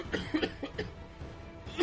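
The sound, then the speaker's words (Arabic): A few dry coughs from someone in the distance near a cemetery, faint and scattered as short rough bursts over a quiet background. “من بعيد سمعتا أحدا يسعل”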